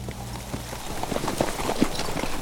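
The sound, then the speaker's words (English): Hoofbeats of horses ridden at the head of a column of troops, a steady, moderately loud run of clip-clop strikes that keeps an even pace throughout. “Moore and Lester rode at the head of the column of hand-picked troops with General Brockner.”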